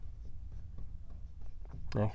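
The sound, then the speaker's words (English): Faint scratching of a marker writing on a board in short, quick strokes, with a voice breaking in briefly at the end. “let me try to write it so you can actually read it.”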